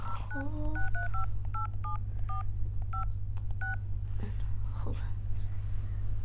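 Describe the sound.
Touch-tone dialing as a phone number is keyed in to call someone's mother: a run of short dual-tone beeps in an uneven rhythm over a steady low hum, then quieter, indistinct sounds.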